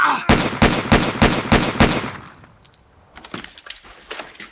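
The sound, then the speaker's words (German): Gunshots in a tense standoff: a rapid, evenly spaced burst of about six loud, sharp cracks, then a quieter stretch with faint clicks and light clattering, no voices. “Hat die jetzt geschossen?”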